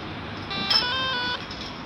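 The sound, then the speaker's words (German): A telephone rings with a staged incoming call in a café: one short electronic ring burst, fairly faint, over a steady low background hiss. “Er wartet auf einen fingierten Anruf.”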